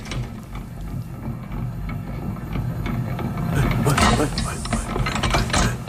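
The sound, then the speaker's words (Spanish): Mechanical rattling and ratcheting from a mixer with rotating arms, a continuous clattering of gears and pawls that grows louder and busier toward the end. “¿qué es este sonido? Esto es una mezcladora, uno de estos brazos que van girando.”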